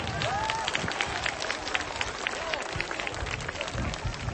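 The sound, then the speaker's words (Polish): An audience claps for a family of a mother, father and four children at a lively event, with a steady patter of applause and a few voices mixed in. “Brawa dla nich.”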